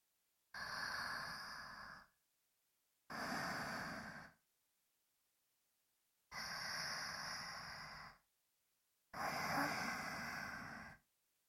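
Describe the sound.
Slow, deep breathing in and out: four long, evenly paced breaths, each lasting about a second and a half, separated by quiet pauses and heard alone at a soft level.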